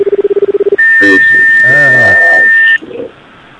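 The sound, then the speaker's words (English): A telephone line tone heard when calling Hawaii: a rapid series of short, low beeps, then a long, steady, high-pitched tone with people talking over it. A quieter tail follows once the tone stops. “it's like the Hawaiian beep. I get that every once in a while I call places there.”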